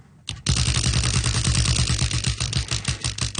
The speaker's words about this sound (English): here on All in a Day, we spun a wheel.